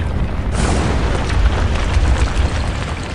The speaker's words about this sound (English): Xu Fengnian gritted his teeth and shouted at Cao Changqing, which made the whole pavilion crack.